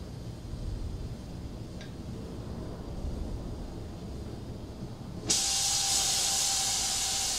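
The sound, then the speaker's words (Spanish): An oxyacetylene welding torch hisses steadily after being lit, then the hiss jumps abruptly to a louder, brighter rush as the oxygen valve is opened, holding steady to the end. “del soplete del acetileno, encendemos y ahora abrimos el mando del oxígeno.”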